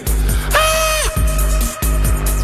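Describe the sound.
An inhuman scream from a young woman being eaten alive by mutants in a gladiator game: one sustained, piercing, harmonic wail that drops away at its end, over a loud, low, droning rumble.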